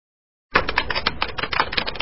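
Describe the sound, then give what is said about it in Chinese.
Typing on a computer keyboard, a dense, rapid run of sharp clicking keystrokes that starts after a short silence and keeps an even, busy rhythm to the end, with no voices. “韦小宝在键盘上敲了三个汉字”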